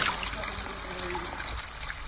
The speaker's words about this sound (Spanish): Esto es un pozo de decantación. Mierda a raudales. Ya es un goteo, ¿no?